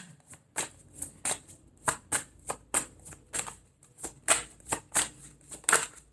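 Tarot cards are shuffled and drawn, giving many soft, crisp slaps and riffles in an uneven rhythm. The sound is quiet throughout and no voices are heard.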